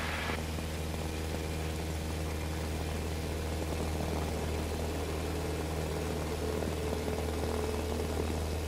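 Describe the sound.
Aircraft engine at full throttle for takeoff, a steady, loud droning roar with a deep low hum that holds an even level throughout, with no break or change in pitch.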